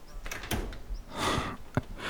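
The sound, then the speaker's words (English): A door latch is undone with a few faint clicks and rattles, a soft rubbing scrape, and one sharper click near the end. “Hold on. I'm just getting the latch.”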